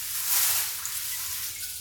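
Water being poured out to rinse something makes a steady, bright hiss, a little louder at first and then continuing evenly for about two seconds.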